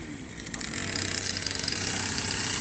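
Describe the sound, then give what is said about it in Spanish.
A brush cutter clearing vegetation produces a steady, moderately quiet engine drone with a low hum and a rough, gritty edge that holds evenly throughout. “Mira cómo desbrozan.”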